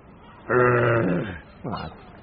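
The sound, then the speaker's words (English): A toy growler inside a teddy bear lets out two low, moaning groans, the first long and sagging in pitch, the second shorter and fainter after a brief pause. “Oh, that's its growler. Growler. You know, makes a noise.”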